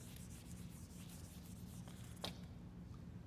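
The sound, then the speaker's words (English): An eraser rubs writing off a board during a church sermon. The soft, steady scrubbing hiss runs throughout, with one brief sharper scrape near the end. “I need to erase some of this so I can write more.”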